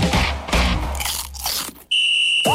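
Crunching of air-popped, unfried potato chips, with a few crisp bites in quick succession, then a sudden sharp, steady high-pitched tone takes over to the end.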